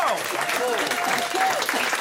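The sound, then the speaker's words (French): Audience applause at a quiz game: a dense, steady wash of clapping that lasts the whole clip, with voices faintly mixed in beneath it. “Est-ce qu'on peut, s'il vous plaît, applaudir quand même?”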